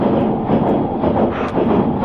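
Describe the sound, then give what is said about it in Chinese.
A train running on rails makes a continuous loud, dense rumble with a steady rolling texture throughout and no voices. “列车提速，第一次提速，”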